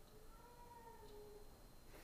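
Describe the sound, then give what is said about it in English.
A pet cat meows once, a faint, drawn-out plaintive cry that wavers slightly in pitch over a steady background hiss. “My kitty's crying.”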